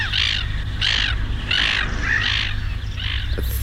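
Harsh, raspy caws from a bird ring out five times at an even, unhurried rhythm over a steady low background rumble.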